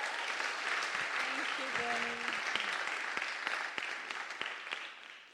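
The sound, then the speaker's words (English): Audience applause fills a church service as a guest is welcomed: dense, steady clapping with a faint voice briefly underneath, easing and thinning toward the end. “So can we give a big round this evening to Almri?”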